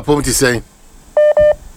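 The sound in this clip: Two short telephone keypad dialing tones beep in quick succession, each a clear steady pitch, following a brief spoken voice.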